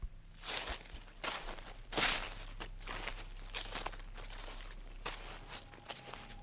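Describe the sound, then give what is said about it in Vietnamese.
Footsteps crunch through dry leaves in a garden at night, a steady series of rustling, crackling steps of moderate loudness with one heavier crunch partway through, and no voices. “Bỗng từ sau vườn truyền vào tiếng chân đi trên lá khô loạt xoạt loạt xoạt.”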